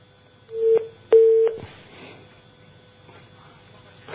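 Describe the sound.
Two short steady electronic telephone tones, single-pitched and fairly loud, mark an incoming call being connected; they come in two close bursts, then fade into faint background noise.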